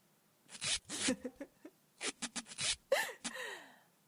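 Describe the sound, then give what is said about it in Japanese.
Duct tape pulled off the roll in short ripping bursts to bind someone's hands behind their back, faint and in two clusters, followed by a breathy vocal sound. “ここにガムテープがあるから、これで縛っちゃいましょうか。”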